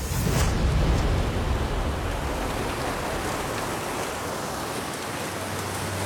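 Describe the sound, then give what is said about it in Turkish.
Loud, steady rushing roar of high-pressure water jets from a hydraulic system blasting thick, dirty, clay-rich soil into a gold-bearing slurry at a mining site. The broad, hissing wash continues unbroken throughout. “Yüksek basınçlı su kullanarak kalın kirli toprağı altın parçacıklı bir bulamaç haline getiriyorlar.”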